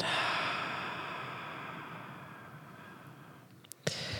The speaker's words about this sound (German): Lass uns mal einatmen, tief durch die Nase. Und ausatmen durch den Mund.